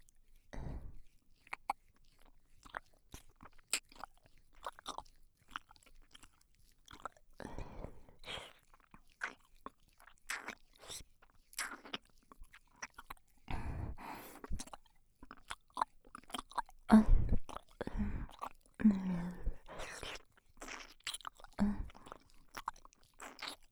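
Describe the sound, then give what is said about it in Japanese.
Close ASMR ear licking along the outer rim: many soft, wet mouth clicks, smacks and slurps in an irregular rhythm, quiet and close, with no talk. “次は反対側のお耳を舐めさせていただきます。まずは外の縁から。”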